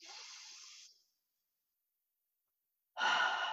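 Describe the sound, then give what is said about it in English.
A deep breath in during a guided deep-breathing exercise: a soft, airy inhale lasting about a second, then silence, then the onset of another louder breathy rush. “Let's do it one more time. Breathe in”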